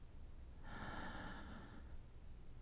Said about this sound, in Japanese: 鼻から多く息を吸うように、息を吸って